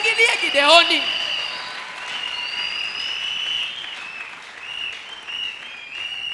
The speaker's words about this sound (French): On peut acclamer Gédéon. Acclamons Gédéon.